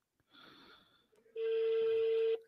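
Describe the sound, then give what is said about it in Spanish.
A telephone rings: a short, buzzy burst comes first, then a single steady, loud electronic ring tone lasts about a second before cutting off. “Está timbrando”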